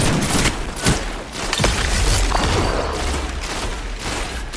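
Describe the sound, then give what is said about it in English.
Video game gunfire rattles during a team zone-capture firefight. Many rapid, sharp shots and thuds overlap in a dense, loud, continuous barrage. “Push in. Come on, you guys. Put those bullets on him.”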